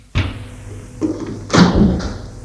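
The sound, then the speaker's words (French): A door opening makes a few dull thuds and clunks at uneven intervals. The loudest knock comes near the middle, and no voices are heard. “La porte s'est ouverte.”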